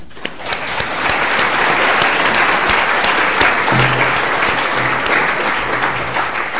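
Audience applause welcomes a lecturer before an evening lecture at the London School of Economics, swelling quickly after a brief start and then holding as a steady, full wash of clapping.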